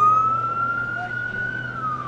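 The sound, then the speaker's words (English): A siren wails from a caravan of emergency vehicles heading down a highway toward a wildfire. A single sustained tone slowly rises and then falls over a low engine rumble. “At 5:40 p.m., a caravan of emergency vehicles turned down Highway 12.”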